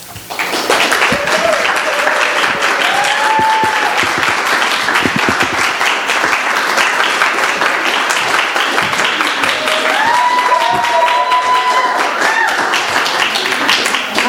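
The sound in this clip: An audience applauds to welcome a speaker, a dense, even patter of many hands clapping that stays loud throughout, with voices rising briefly over it now and then.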